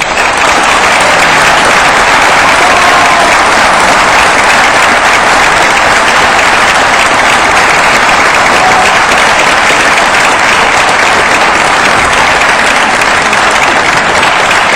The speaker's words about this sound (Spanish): así era aplaudida la intervención inicial del diputado suplente Carlos Pérez